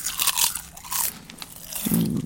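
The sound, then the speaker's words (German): Crunching of potato chips in salty, sour and paprika flavours, with a few loud crisp crunching bursts separated by short gaps, like bites being chewed. “Chips, salzig, sauer, mit Paprika, fein.”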